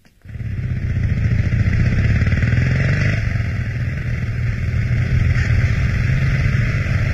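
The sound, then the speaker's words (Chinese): A motorcycle carrying two riders off toward a hotel in northern Shanghai, its engine starting abruptly and then holding a loud, steady, rumbling drone without break. “摩托车载着田海、周达驶往上海北区的一座幽静典雅的饭店。”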